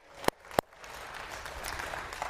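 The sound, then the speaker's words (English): An audience claps: two sharp, separate claps ring out first, then a faint, steady wash of scattered clapping follows. “You can go ahead and say amen, and you could clap a little bit”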